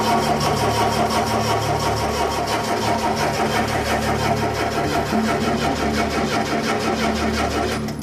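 A car engine with no petrol cranks without catching. The starter churns loudly in a steady, rapid rhythm for the whole stretch and never fires into a run.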